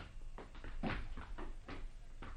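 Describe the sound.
Door clunks and rattles as a door is opened for arriving guests in a radio drama, a series of short wooden knocks and scrapes at an uneven pace with no talk.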